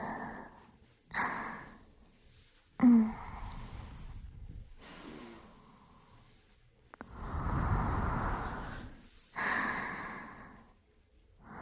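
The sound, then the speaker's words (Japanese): Deep breaths drawn in and released during a calming relaxation session: a few slow, breathy inhales and exhales with soft hiss, one long exhale near the middle, and no talking. “深呼吸。”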